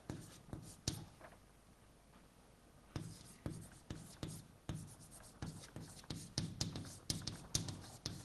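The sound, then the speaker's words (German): Writing on a board during a lecture, many quick tapping and scraping strokes in short bursts, with a quiet pause near the start before the strokes resume in a steady run. “Oh Gott, wenn ich so weitermache, brauche ich noch, muss ich da drüben weiterschreiben.”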